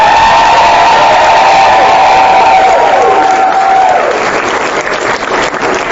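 A crowd at a Missouri abortion-rights rally cheers, whoops and applauds, a loud, continuous roar of clapping and shouting that tapers slightly toward the end.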